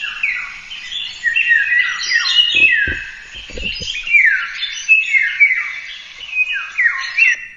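Recorded bird song of clear, fluting whistles in many short descending phrases that repeat steadily, bright and fairly loud, with a few low dull thumps partway through.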